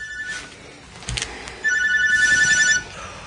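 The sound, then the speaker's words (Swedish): A telephone rings in a few short electronic chirps followed by one longer sustained trilling ring, bright and fairly loud, with no talk over it. “Ska jag inte svara? Det är Peter. Men svara nu så får du överstökat.”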